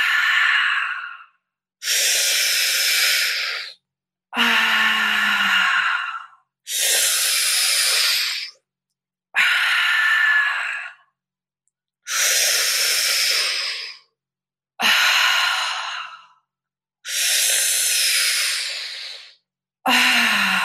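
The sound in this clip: Slow, deep breathing during guided breath work: eight long, hissing breaths of about two seconds each, separated by short silences, with a ninth just beginning at the end.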